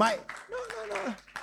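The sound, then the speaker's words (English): Tired, weak clapping from an audience: a few sparse, limp claps sound under a person speaking. “No. Even the clapping is tired. Don't clap.”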